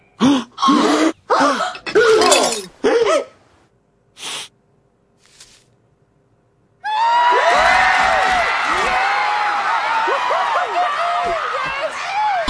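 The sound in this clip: A talk-show audience erupts in loud, sustained cheering and shouting after a stretch of speech and a near-silent pause, the crowd noise continuing unbroken to the end.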